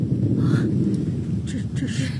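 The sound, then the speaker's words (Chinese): Thunder rolls as a deep, continuous low rumble that fills the whole stretch at a steady, fairly loud level, with no sharp crack. “这是打雷了。”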